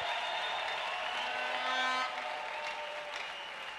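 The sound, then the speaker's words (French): An audience claps to acclaim the Lord during a French and Swahili church service. Many hands make a dense, continuous patter that eases slightly toward the end. “Nous acclamons encore le Seigneur. Hebu mchapie makofi makubwa.”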